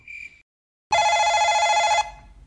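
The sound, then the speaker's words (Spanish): A telephone rings for an incoming call on a radio show: one bright, sustained ringing burst lasting about a second, following a short, higher tone at the start. “6 de la tarde, 35 minutos. Pues para la compañía, aquí tenemos una llamada.”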